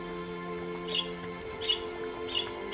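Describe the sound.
Pet lovebirds give three short, high chirps at an even pace. The chirps are fairly faint over a steady low hum.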